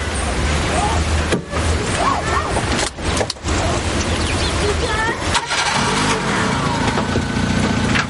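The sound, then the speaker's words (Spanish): A car engine starts and runs as the car reverses out of a parking space, a steady mid-pitched engine hum broken by a few brief dips, with some talk over it. “La joven da marcha atrás para salir del aparcamiento y Cyril mira a Len”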